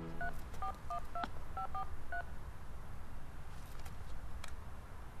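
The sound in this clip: A telephone number dialed on a touch-tone keypad, a quick run of short, clear beeps over a steady low hum, followed by a few seconds of the same background noise alone.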